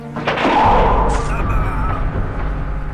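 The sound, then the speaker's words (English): Gunfire as soldiers open fire on invaders attacking an army tent camp: a heavy, sharp boom near the start gives way to a loud, sustained noisy roar and low rumble. “Open fire! You shot at us. We shoot at you!”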